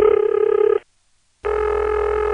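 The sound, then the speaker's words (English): Telephone ringing tone from a 652 Shenandoah exchange on a trunk line: two steady, buzzy ring bursts, the first short and the second running to the end after a silent gap, with a slight wavering in the second. “I wish I had more tapes, but this is the only recording I have of the 652 Shenandoah ring, as far as I know.”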